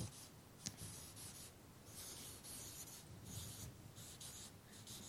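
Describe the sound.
A word being written by hand: faint scratchy strokes of a pen rubbing on a surface, in a few quick bursts with no talk.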